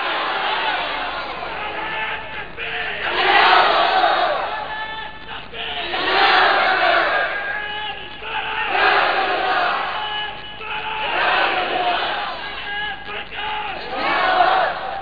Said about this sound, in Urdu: ابھی ہمارے نوجوان صاحب اتنے زوردار نعرہ لگا ہے لیکن کچھ لوگ نعرہ کو دیکھ رہے تھے